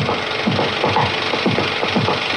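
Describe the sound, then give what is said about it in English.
Scraping of images directly onto film stock, heard as a coarse, continuous rasping with repeated firmer strokes recurring in a fairly steady rhythm. “I can draw or scrape away images here. And as soon as I scrape away a few, maybe sometimes just one that I scrape, I can run it.”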